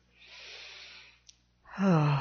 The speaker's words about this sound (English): Please settle your bodies into comfort. Take three very deep, centering breaths